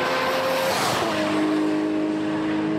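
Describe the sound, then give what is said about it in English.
A tuned car driven by Smokey Nagata accelerates hard toward 200 mph, its engine giving a loud, continuous roar with a high, steady whine through the whole stretch. “The vehicle approaches 200 miles per hour very quickly in 21 seconds.”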